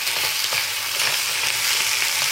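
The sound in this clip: Food sizzles as it fries in a kitchen pan, a loud, steady, crackling hiss that runs without a break and with no voices.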